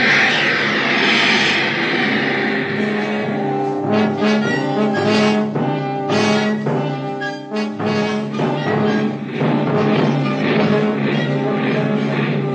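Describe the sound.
Ship's steam engine room machinery runs as a loud, continuous mechanical drone with a deep tonal hum and layered harmonics, steady throughout apart from a brief dip in level midway.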